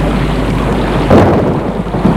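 Deep, rolling thunder rumbles steadily through a storm, swelling briefly into a louder crack-like surge midway before settling back into a continuous low roar with a faint hiss.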